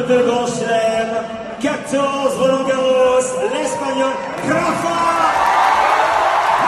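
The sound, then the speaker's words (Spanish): A tennis crowd cheers a player arriving on court at the French Open, a continuous loud roar of many voices with whoops and chant-like shouting throughout. “Este es el sonido de la afición recibiendo a Nadal ayer en la Philippe Chatrier.”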